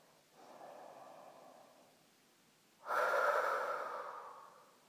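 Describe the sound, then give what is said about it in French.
Deep breathing in a guided relaxation exercise: two slow, soft breaths separated by a brief pause, the second louder, breathier and longer, gradually fading away. “Inspire, expire, relax. Une deuxième fois.”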